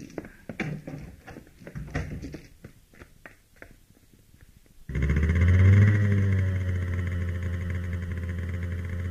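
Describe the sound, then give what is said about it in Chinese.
A motorcycle engine at night kicks in abruptly and runs with a loud, steady drone that revs up briefly and then settles. A quick series of sharp clicks and knocks comes before it. “刘晶骑着摩托车在黑夜中消失”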